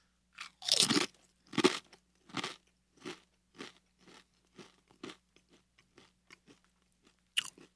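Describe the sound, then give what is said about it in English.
Crunching as someone chews a slightly spicy chip: many crisp, crackling bites in an uneven rhythm, loudest at first and growing fainter, with no talking. “You can't eat in silence. It just tastes like a chip. All right, then it's a little bit spicy”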